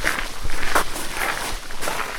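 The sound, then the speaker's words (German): Footsteps on a walk deep into a forest, soft irregular crunches and scuffs over a steady noisy background, moderately loud with no clear speech. “Die Kinder und die Ziege gehen gemeinsam tiefer in den Wald.”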